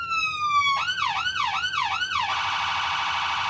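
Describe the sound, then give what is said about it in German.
An emergency vehicle siren system, heard from a sound box in front of the hood, cycles through its signals: a long falling tone, four quick rising-and-falling whoops, then a rapid, steady high warble. “Schalte die Signalanlage ein. Die Schallbox ist der Kasten vor der Motorhaube. Die lautesten Geräusche werden hier geschluckt. Und schalte einmal alle Signale durch.”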